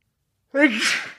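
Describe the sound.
A single sneeze from someone bothered by heavy green pine pollen on Long Island: a short voiced intake breaks into a breathy burst that fades quickly.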